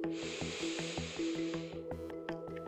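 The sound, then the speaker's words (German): A long, soft breath drawn in during a guided forest relaxation, heard as a steady airy hiss over gentle pulsing music, cutting off before the end while the music continues. “Du nimmst einen tiefen Atemzug ein”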